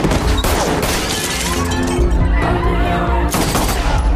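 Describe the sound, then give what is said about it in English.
Rapid gunfire during a fight scene as people are shot, with many sharp cracks merging into a dense, loud, continuous barrage alongside crashing impacts. “Shooting a couple more people.”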